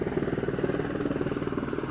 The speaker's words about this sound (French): L'hélicoptère de la LAPD, Los Angeles Police Department, vient de me survoler.